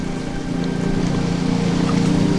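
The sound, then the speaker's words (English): A boat motor runs on the water with a steady, low droning hum that holds an even pitch throughout and grows slightly louder toward the end, with no voices. “go and stop the boat.”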